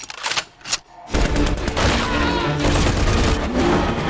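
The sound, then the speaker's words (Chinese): Heavy machine gun fire in a dense, sustained burst of rapid shots, loud and continuous for several seconds after a brief quieter lead-in, with booming low thuds mixed through the rattle. “快跑， 架好重机枪。”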